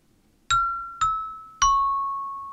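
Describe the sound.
Three bell-like struck notes from an automatic keyboard instrument, each with a sharp attack and a long, clear ringing decay, the third a little lower in pitch than the first two.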